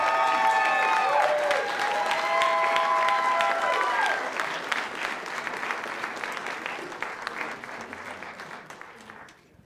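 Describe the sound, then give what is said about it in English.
Audience applause greets debate candidates walking out on stage, a loud, dense wash of clapping with a few cheers. A man's voice talks over the first half before the applause gradually thins and fades out. “You can go ahead and clap here in a second as we bring the candidates out.”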